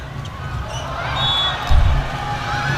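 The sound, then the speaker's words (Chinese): A volleyball serve in a Shanghai versus Jiangsu league match: one dull thump of a hand striking the ball stands out against steady crowd noise in the arena. “张子萱继续来发球”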